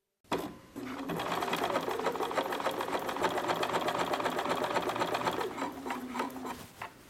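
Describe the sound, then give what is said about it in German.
A sewing machine bastes the hem of a pair of homemade trousers with a steady, rapid stitching whir that starts abruptly and runs for about six seconds, then slows and stops near the end. No voices. “Ich habe mir eine Hose genäht und muss jetzt noch den Saum machen. Und um einfach zu gucken, ob mir die Länge so gefällt, wie ich mir das vorstelle, hefte ich den jetzt kurz mit der Nähmaschine.”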